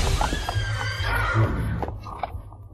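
A startled, shying horse neighs in a shrill, strained whinny, with other rough noise and movement around it.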